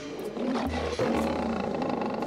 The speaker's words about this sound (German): Und er ist kein Leisetreter, dieser König der Tiere.